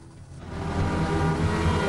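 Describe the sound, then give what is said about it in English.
Car engine accelerating as the car pulls out on a narrow country road to overtake a Porsche. A low, steady engine growl builds in loudness and then holds strong. “Rounding another curve on the narrow country road, she pulls up behind a Porsche, then pulls out to overtake.”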